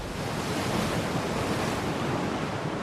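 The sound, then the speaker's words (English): Ocean waves crashing onto jagged rocks: a loud, continuous roar of surf with wind noise, a dense wash that never breaks into separate waves. “Waves crash onto the jagged rocks below.”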